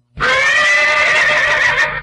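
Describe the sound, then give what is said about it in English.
A horse neighs once in a loud, shrill whinny of about two seconds, heard alone. “Oh, there's our horse.”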